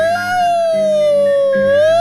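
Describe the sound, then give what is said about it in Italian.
A siren wails as a loud, sustained tone rich in overtones, dipping slightly in pitch and then rising again near the end. “la sirena questa”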